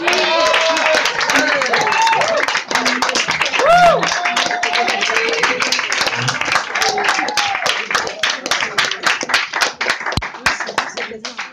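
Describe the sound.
Audience applause greets a performer as she is introduced: many dense, overlapping claps that hold steady and then thin out toward the end, with voices heard over the clapping.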